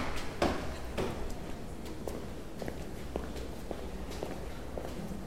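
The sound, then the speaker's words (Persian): Footsteps of someone coming down the stairs: a series of faint, soft thuds, irregularly spaced, over a quiet background. “داره از پله ها میاد”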